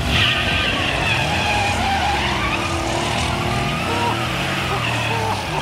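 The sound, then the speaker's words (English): A Saab Sonnet race car roars through a race, a loud continuous engine drone with shifting pitch and squealing tires layered over it. “Oh, that's the sound of a Saab Sonnet. That it is, Jackie. That's our fight car, the Saab Sonnet, driven by Samantha.”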